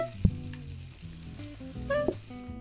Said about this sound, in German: Pack ich es auf den Grill und fertig ist.